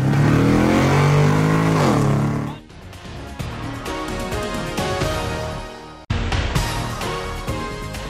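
A car shifting into first gear and accelerating: loud, steady engine revving that drops off, then builds again with changing pitch before an abrupt break and a renewed surge of revving.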